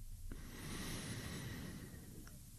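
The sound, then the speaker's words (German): During a guided breathing exercise, a deep breath is drawn in through the nose. It is one long, soft, airy inhalation lasting about two seconds, faint and steady, with no talking. “dann atme gerne mit mir zusammen einmal tief durch die Nase ein”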